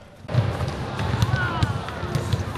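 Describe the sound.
Basketballs thump repeatedly during children's dribbling practice at a basketball training session, the bounces irregular and overlapping over a busy background with voices mixed in.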